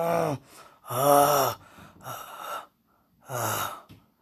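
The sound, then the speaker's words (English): A person groans in four drawn-out, low voiced bursts separated by short silences, each swelling and fading, with breathy edges and no words. “Oh, now I'm groaning.”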